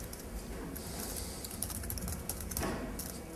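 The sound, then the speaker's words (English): Soft typing on a computer keyboard while entering program code: many faint, quick clicks in an uneven rhythm under a steady background hiss, with no voices. “Oh, I'll just type it in.”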